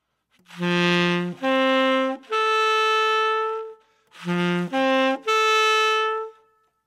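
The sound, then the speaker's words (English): An instrument plays a root, fifth and tenth arpeggio: three sustained, rising notes with full harmonics, each held longer than the one before. The three-note pattern is then played a second time, loud and alone. “What I'm talking about is play the root, play the fifth, play the tenth. What's a tenth? It's the third. Sounds like this.”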